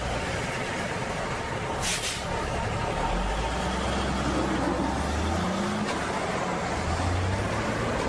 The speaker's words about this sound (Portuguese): Ah, o ônibus vem vindo.